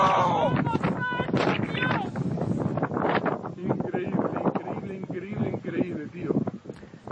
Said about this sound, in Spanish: Así suena el viento, el fuego, la desesperación.